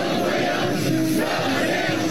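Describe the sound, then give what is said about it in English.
Hundreds of Chinese men and women chant in unison, greeting the US president as he steps off Air Force One in China. Their voices merge into a dense, loud, sustained crowd roar. “President Trump was greeted by hundreds of Chinese men and women chanting in unison, waving American flags as he got off of Air Force”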